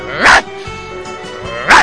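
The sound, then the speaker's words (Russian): A poodle barking: two sharp, loud barks about a second and a half apart, each standing out clearly over a quieter steady background. “Впрочем, ну ее собаку, чего она тут путается?”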